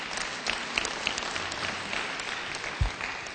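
Applause fills a church audience, a steady, fairly soft patter of many hands clapping that holds an even level throughout with a few sharper claps standing out.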